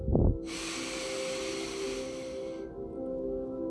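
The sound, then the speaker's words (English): A deep breath taken during a guided breathing meditation: a steady, airy hiss of inhaling lasts about two seconds, then eases into a quieter breath over a low, steady hum. “And take a nice deep breath in.”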